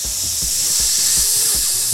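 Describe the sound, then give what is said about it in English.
Sizzling of an ooze engulfing a character: a continuous bright, loud hiss like steam, with soft low thumps recurring underneath at an uneven pace. “a pseudopod of ooze like slams out and like just engulfs Raladin and just immediately you can just hear”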